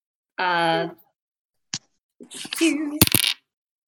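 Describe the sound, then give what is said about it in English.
Dice rolled during a tabletop role-playing game clatter briefly across a surface. A short voice and a single click come first, then a rattling burst of small hard knocks. “The dice have spoken. They rolled the same number three times, even though it's a number you've already gotten.”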